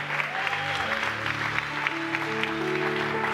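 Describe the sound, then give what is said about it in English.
Audience applause at a church service for the year's interns, many hands clapping in a steady, sustained wash from start to finish. “Give a hand to all the interns.”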